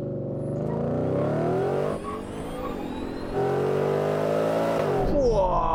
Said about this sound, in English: Cybertruck take off. Oh yeah, you ain't catching that fucking thing.